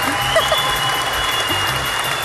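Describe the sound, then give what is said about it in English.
Audience applause: a crowd claps steadily in a dense, even patter that stays loud and continuous throughout, with no clear breaks. “Keep clapping.”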